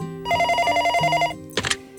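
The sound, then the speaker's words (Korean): An office telephone rings with a single electronic burst of rapid, warbling tones lasting about a second, clear and fairly loud with no talk over it. “내 자리로 전화 돌려.”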